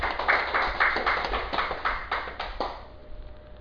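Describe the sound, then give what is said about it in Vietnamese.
An audience claps at a Buddhist dharma talk. Many steady, rhythmic claps land roughly in unison, then thin out and fade toward the end. “Xin quý vị vỗ tay một tràng pháo tay.”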